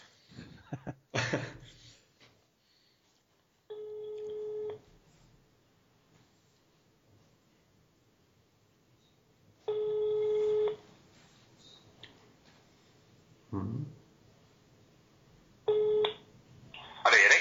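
Phone-call ringback tone sounds three times, each a short mid-pitched electronic burst separated by long quiet gaps, with a few brief clicks and noises in between.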